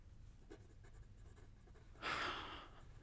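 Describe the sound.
A pen drawing on paper gives a faint, continuous scratching, with one brief, louder stroke of scraping near the end.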